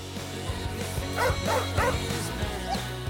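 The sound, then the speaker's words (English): A person's voice imitates an angry guard dog barking, giving a few sharp, yappy barks with whimpering tones over a low background. “mimics the angry guard dog”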